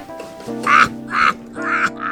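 Harsh croaking bird calls outside, a few rasping, nasal cries repeated at short intervals. They are fairly loud and heard alone.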